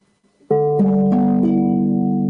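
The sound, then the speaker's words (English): A ukulele in low G tuning is strummed, opening on a bright full chord and moving through a few quick chord changes. The chords ring on steadily, loud and alone, with no voices. “So that's my low G tuning.”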